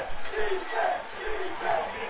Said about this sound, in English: Crowd really coming alive